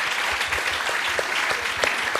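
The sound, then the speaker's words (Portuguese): Audience applause breaks out as someone is called up at a live show, a dense, steady wash of clapping that holds at an even level for about two seconds without a clear break. “Uma salva de palmas.”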